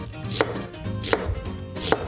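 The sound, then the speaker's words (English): A knife chops through an onion, cutting it into quarter-inch half moons. Three crisp, evenly spaced chops sound alone, each a sharp thud with a bright edge. “Then for the onion, just remove the top, gonna cut it in half, and then cut it into 1/4-inch half moons.”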